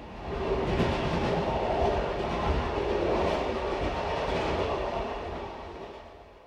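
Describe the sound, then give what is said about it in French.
Steady rumble of a passenger train running on rails, heard on board train 70 travelling through Siberia. A dense, continuous roar holds steady and then eases slightly toward the end, with no voices. “Vie à bord du train 70.”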